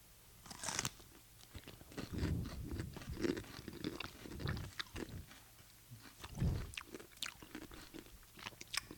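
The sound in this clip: Crunching and chewing as someone eats a paprika-flavoured snack piece, with many faint, irregular bites and grinding crunches following one another.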